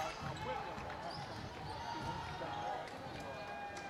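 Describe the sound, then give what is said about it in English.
A basketball is dribbled on the court during a high school boys' game. The bounces sit under a steady murmur of crowd noise and voices in the gym. “Just dribbling around with it.”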